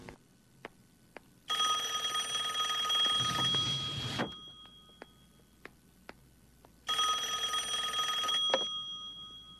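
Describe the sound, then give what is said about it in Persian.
A telephone bell rings in two long, loud bursts separated by a few seconds of near quiet, with faint ticking clicks in between. “برای چند لحظه منو ببخشین دکتر باید جواب تلفن رو بدم”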